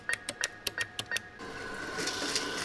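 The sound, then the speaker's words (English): An ATM dispensing cash after a debit card goes in: a quick run of short, faint beeps, then a steady mechanical whirring as the bills are fed out. “Have you ever been with an adult who sticks a debit card into a machine that sounds like that, and then the machine spits out dollar bills? That's called an ATM machine”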